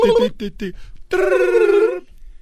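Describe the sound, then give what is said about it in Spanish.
A voice imitates a ringing telephone, giving three short buzzing bursts and then one long sustained ring-like tone. All of it is loud and clear. “Está haciendo la voz, el efecto del, teléfono.”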